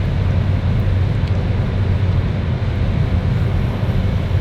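A rear-wheel-drive car coasting down from about 150 km/h with the throttle released, a loud, steady roar of wind and tyre noise over a low rumble, unbroken and without talk.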